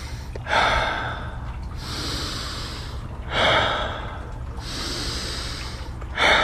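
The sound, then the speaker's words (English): Fast, deep rhythmic breathing during a guided breathing exercise, drawn in through the nose and blown out through the mouth: sharp, loud inhales alternate with longer, softer, breathy exhales, repeating a few times with no talk. “really let the exhale go as if you are fogging a window in nose, out mouth. Three more, a little bit faster, bigger, in.”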